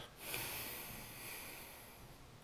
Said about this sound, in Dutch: Naar beneden, 1, 2, 3, adem uit.